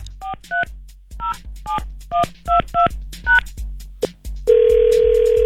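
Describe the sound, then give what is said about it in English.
A telephone call going through: a quick series of touch-tone dialing beeps, then a steady, buzzy ringing tone starts and holds to the end. No voices. “It's going through now. I can tell that ring.”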